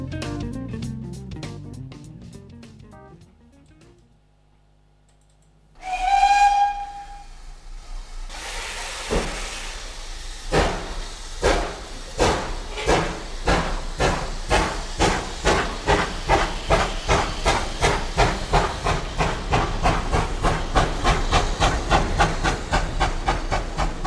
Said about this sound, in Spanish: nos vamos a subir al tren que va a pitar su salida.